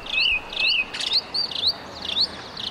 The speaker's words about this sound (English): It's so quiet that you can even hear the birds chirping in Cuzco's central square.